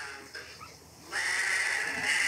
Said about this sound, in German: Und das sind weiße Lämmer, ne?